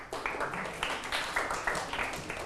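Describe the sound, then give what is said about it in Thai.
Children in a Thai classroom clap together for a classmate, beating out a rhythmic, patterned sequence of crisp group claps at moderate volume, evenly paced and repeated across the whole stretch. “ถูกต้องไหมเพื่อนๆถูกต้องปรบมือให้เพื่อนครับ”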